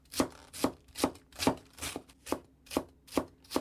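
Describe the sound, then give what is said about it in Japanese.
A kitchen knife chops cabbage into fine shreds for breakfast in nine steady, evenly spaced strikes on the cutting board, each a crisp thunk. The rhythm runs at roughly two cuts per second, with no voices over it. “お母さん起きるまでキャベツ切り続けるわよ。キャベツ山盛りになっちゃうわよ。”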